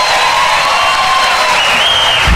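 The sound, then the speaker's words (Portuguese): Crowd applause at a sertanejo music concert being recorded for a DVD: a continuous roar of clapping and cheering, with sustained musical tones held above it. “Obrigada, muito obrigada. Mais aplausos.”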